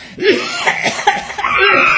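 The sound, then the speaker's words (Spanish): Coughing: a few raspy, throaty coughs in quick succession, loud and without talk, the last one drawn out longer than the others. “Voy a toser, perdóneme,”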